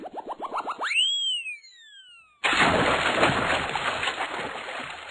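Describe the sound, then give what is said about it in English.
An axe thrown into a forest pond, in cartoon style: a run of bouncy boing tones and a whistling chirp lead into a sudden loud, hissing burst of splashing water noise that carries on to the end. “Now I'll throw my axe in the pond.”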